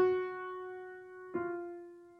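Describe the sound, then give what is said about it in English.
Two piano notes forming a descending minor second, the second a half step below the first. Each is struck once and rings out, decaying slowly, clear and alone. “The interval of a minor second, descending minor second, sounds like this.”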